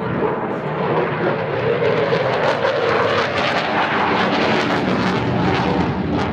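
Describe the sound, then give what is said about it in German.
A Eurofighter fighter jet at an aerospace exhibition roars continuously and very loudly, overloading the microphone into a dense, harsh, distorted rumble that holds steady throughout without pause. “So klingt es, wenn die Lautstärke eines Kampfjets vom Typ Eurofighter das Mikrofon eines Radioreporters überfordert.”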